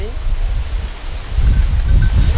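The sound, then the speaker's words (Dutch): Strong wind blows across open desert land near the equator, a gusty low rumble with airy rustling that swells louder through the second half. “Je verwacht het misschien niet in het land rond de Evenaar, maar hier waait de wind meestal met 40 km per uur. Windkracht 6.”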